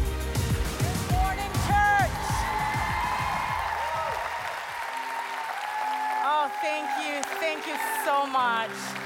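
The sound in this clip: Audience applause and cheering at a church celebration as a speaker, an author, comes up to the stage. Dense, steady clapping runs throughout, with scattered whistles and whoops rising above it.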